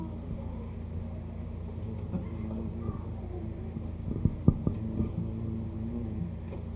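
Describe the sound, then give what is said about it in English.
Road noise from a driving car makes a faint, steady low rumble and hum, with a few soft thumps bumping through partway along. “What is that noise? It's just road noise.”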